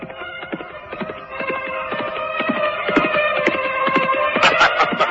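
Hooves clip-clop as a horse is ridden under a comfortable, finely made new saddle: a long, steady run of many rhythmic hoofbeats at moderate loudness, with no voices.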